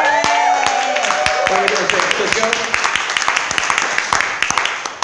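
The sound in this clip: Audience applause and cheering as a performer from Illinois is welcomed to the stage: dense clapping with a voice cheering over the opening moments, thinning into scattered, sharper claps as it fades.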